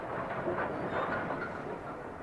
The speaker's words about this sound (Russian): Внезапно паровоз остановился перед наваленными на рельсы огромными стволами сосен.